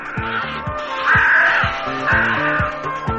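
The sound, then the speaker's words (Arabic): A crow caws in a cage, giving two harsh, drawn-out caws at a steady volume. Beneath them runs a repeating low pulsing pattern. “هذا هو الغراب، يزعق بإيجاز طارة وطارة بإسهاب، يعيش في قفص له باب”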